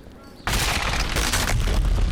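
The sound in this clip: Gunfire and explosions from the opening cutscene of Gears of War on Xbox 360: a sudden loud burst about half a second in, then a dense, continuous barrage of booming, rumbling blasts to the end.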